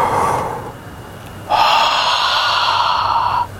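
A deep breath is drawn in during a guided spiritual teaching session. A short airy breath comes first, then a long, steady inhalation lasts about two seconds with an even rush of air.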